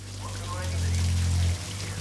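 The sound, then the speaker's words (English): Water pours over the edge of a bathtub in a continuous splashing patter like heavy rain. It swells slightly in the middle, then eases off near the end. “Water pours over the edge of the tub and knees protrude above the water.”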